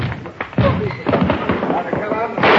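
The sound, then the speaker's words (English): A few sharp gunshot bangs ring out during a police arrest, mixed with thumps and overlapping voices of people talking. “Shots, Joe.”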